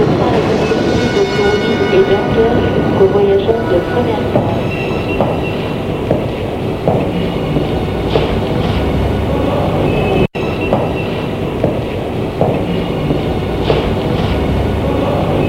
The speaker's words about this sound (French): Et il entre dans le wagon. Le chauffeur dépose sa valise. Et le train s'en va.